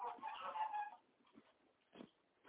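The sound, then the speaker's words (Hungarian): A large rooster sitting in a nest gives a short, faint clucking call, followed by a few soft, scattered rustling noises. “Bent van egy nagy kakas. Bent van a fészkön”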